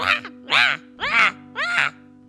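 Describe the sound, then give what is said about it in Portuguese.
Crows cawing: four loud, harsh, evenly spaced calls, each a short raspy burst with a low steady hum underneath. “Gralharam os pássaros e tão depressa como os corvos vieram, voaram embora”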